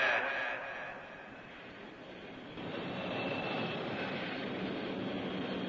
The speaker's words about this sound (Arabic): تعلن مؤسسة أحد عن إقلاع رحلتها رقم 83 والمتجهة بمشيئة الله تعالى إلى الأراضي المقدسة